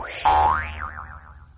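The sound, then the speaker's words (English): Cartoon boing of bouncing on a hopping toy, a single springy twang that rises in pitch, then wobbles up and down and fades away. “Well, I've taken another bounce on my arrow hop.”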